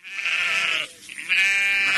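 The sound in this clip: Sheep bleating on a farm: two long, loud, wavering bleats, the first running almost a second before a short pause, the second starting sharply and holding to the end.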